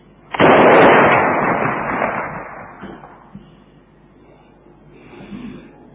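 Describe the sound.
A cannon fired on command gives one loud blast with a sharp onset, followed by a long rumbling decay that fades over several seconds, with no talk.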